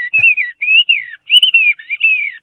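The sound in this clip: Whistled imitation of bird song by a human bird-song performer: bright, high warbling phrases that trill and slide, repeated in a quick series with short gaps, loud and alone.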